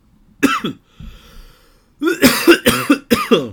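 Harsh coughing and throat clearing from someone with trail mix stuck in their throat. A single cough and a quieter rasp come first, then a cluster of loud, forceful coughs in quick succession.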